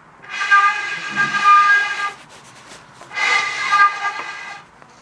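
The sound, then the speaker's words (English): A conch shell blown as a horn, giving two long, steady, breathy blasts with a short quieter gap between them. “It makes noise! You'll get there. And that's what people are trying to do, make noise. Mm-hmm. Yeah. I did my conch to the four directions.”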